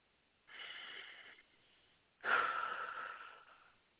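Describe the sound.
Two slow, deep breaths taken during a mindfulness exercise, each a soft, airy rush of about a second, the second louder and longer than the first, with no talk.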